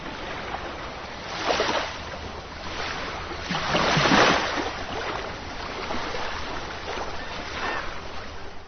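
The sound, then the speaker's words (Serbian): Ocean waves roll in as broad, hissing surges of surf, with a few louder swells rising and falling over a steady wash of water. “Hvala, evo malo talasa za vas.”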